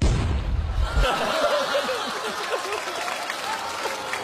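A hand grenade exploding: a loud, low, booming burst at the start, then a long crackling rumble that gradually fades.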